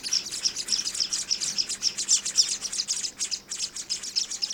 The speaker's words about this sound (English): Here, for example, is the sound of some hungry, scaly-breasted Munya chicks begging in the nest.